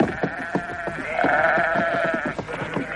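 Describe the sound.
Weaned lambs bleat in one sustained, wavering cry lasting over a second, set among a run of short, sharp knocks.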